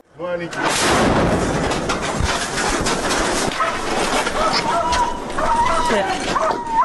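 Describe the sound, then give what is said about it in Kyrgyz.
A dog cries out in distress after a mine strike, with high, strained yelps and whines over a loud, noisy wartime background, and voices are mixed in. “Страшный крик собаки.”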